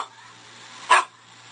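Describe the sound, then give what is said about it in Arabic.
One short, sharp dog bark rings out against near silence in a children's alphabet lesson. “هذا كلب، وقال انه الكلب يبدا بحرف الدي.”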